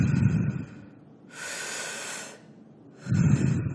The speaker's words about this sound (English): you're breathing in and out through your mouth this time